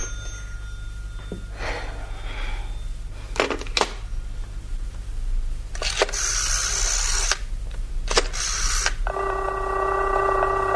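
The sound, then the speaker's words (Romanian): A telephone number being dialled on a line that keeps coming back busy: several bursts of clicking, whirring noise separated by pauses, ending in a steady sustained tone. “formez de 3 sferturi de oră numărul 4008 Mary Hill. Și firul e mereu ocupat.”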